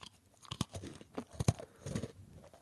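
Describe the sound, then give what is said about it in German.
A biscuit is bitten and broken, giving a few crisp, crunchy snaps and crumbly cracks at uneven intervals, faint and with no talk. “So, das war Keksbruchschall.”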